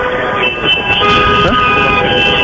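Horns of an express train on the Timișoara–Bucharest route, sustained harmonic blasts held steadily over a rumbling rail background.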